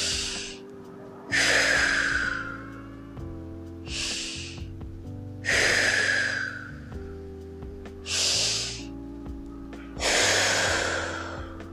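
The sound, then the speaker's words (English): Three deep breaths: each is a noisy, airy inhale followed by a longer, breathy exhale, in slow, even rhythm over soft sustained tones. “If you're not doing well in this very moment, I want you to take 3 deep breaths.”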